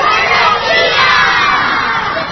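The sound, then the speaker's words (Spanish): A class of fifth-grade schoolchildren shouting a good-morning greeting together, a loud, sustained burst of many young voices in unison. “me han dicho que si yo les digo buenos días, ellos van a gritar buenos días desde todos los pulmones”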